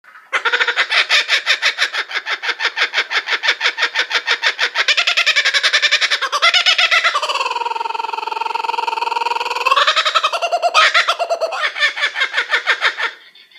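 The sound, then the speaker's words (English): A laughing kookaburra calls loudly and without pause for about thirteen seconds. A fast chattering run of harsh repeated notes swells into drawn-out hooting cries in the middle, then breaks back into rapid cackling. “For your enjoyment, I will now play the call of a laughing kookaburra for you.”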